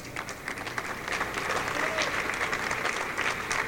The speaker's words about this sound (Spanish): Tania Díaz, que le doy un gran aplauso.